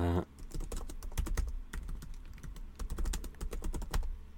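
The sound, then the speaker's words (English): Rapid typing on a computer keyboard while writing a note: a dense, irregular run of light clicks that continues steadily throughout with no talk. “Hang on, let me just write something.”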